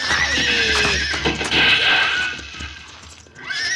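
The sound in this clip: A horse neighs loudly as a rider approaches, giving a long, shrill, wavering whinny that fades, then a shorter call near the end.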